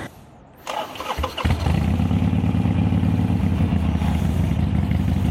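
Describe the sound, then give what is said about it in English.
A Harley-Davidson motorcycle engine in town cranks over after a quiet start, then catches and settles into a steady, loud, low-pitched idling rumble that runs unbroken to the end. “So we're going to do a little bit of city driving. And we're going to get out and ride a little bit of Route 66.”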